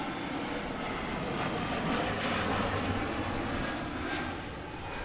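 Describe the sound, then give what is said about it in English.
Airplane flying overhead along the landing path near O'Hare International Airport: a steady, broad engine roar that swells slightly in the middle and eases a little toward the end. “The Chicago Sky play 20 miles outside of the city, along the landing path for the O'Hare International Airport.”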